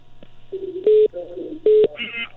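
Telephone keypad tones sound as a phone line is dialed to reach a caller. Two loud, steady beeps stand out among softer tones and clicks, all over a constant low hum.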